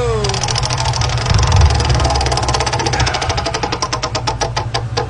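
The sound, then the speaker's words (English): A prize wheel spinning, its rapid ratcheting clicks gradually slowing and spreading apart as it winds down, over a steady low rumbling hum. “you want to spin the Wheel of Misspeaks? Yeah. Yes. All right. Well, let me oil this baby up. It's my turn to give it a yank, and here we go.”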